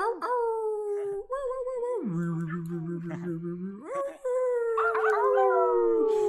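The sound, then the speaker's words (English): Several people on microphones howl like animals during an online class, their overlapping voiced woo howls forming a continuous chorus. The pitch drops low midway, then climbs back up. “unmute your microphone and let's make some noise and send some love out to all the people who are tuned into this broadcast. So go ahead, just do like animal woo woo woo.”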